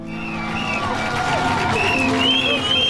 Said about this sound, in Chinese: 晨曦中，有40多万名观众从4面8方赶来，他们聚集在港口，为即将踏上征程的水手们助威送行。